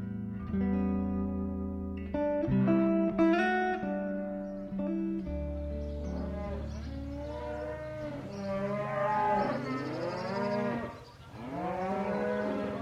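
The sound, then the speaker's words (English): Dairy cows mooing at milking time on a farm in England, with many long, loud, overlapping moos that rise and fall in pitch and continue without a break. “Before we go, get your pail and buckets. It's milking time at Wingstone Farm in Manitoun, England, where these ladies were recorded as part of the Sounding Dartmoor community project”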